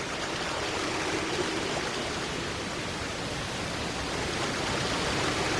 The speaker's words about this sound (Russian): «Но скоро мы оба утонем. Слышишь, как гудит водопад?»